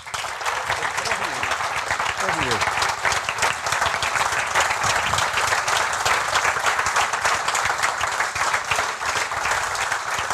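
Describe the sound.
A conference room audience applauds to welcome a football writer and a World Cup winner onto the stage. The clapping is dense, loud and sustained for the full length, with a few crowd voices mixed in.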